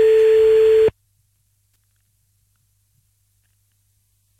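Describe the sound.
A telephone busy signal plays on calling back: one steady, mid-pitched beep of under a second, then a long silence before the next beep begins.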